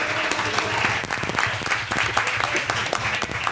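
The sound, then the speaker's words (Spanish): Dense, steady applause from a group at a LAN party gathering in Murcia, greeting a table companion during introductions; rapid overlapping claps fill the whole clip at an even, fairly loud level, with voices faintly mixed in. “el señor Juancar, por favor, un aplauso para él.”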